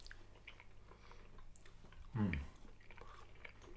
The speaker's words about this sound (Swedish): Nu smakar vi på en färsk champignon.